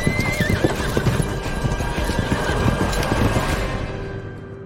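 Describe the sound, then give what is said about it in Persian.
A white horse, ridden by a woman, gallops away with rapid, steady hoofbeats clattering throughout. A whinny rises near the start, and the sound stays loud and dense until it thins out at the end. “سریلا اسب سفید اون زن رو سوار میشه، فرار میکنه.”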